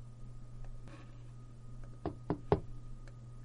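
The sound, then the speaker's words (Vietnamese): Knocking on a closed door: three sharp, evenly spaced knocks in quick succession, fairly faint over a steady low hum. “tiếng gõ cửa của Diệp Viễn đã liền vang lên”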